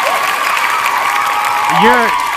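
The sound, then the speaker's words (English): Cheering and applause from a crowd, played as a sound effect, form a steady dense wash throughout. A voice briefly speaks over it near the end. “let's put the cheers. Hold on. Wait. Volume's up. There you go.”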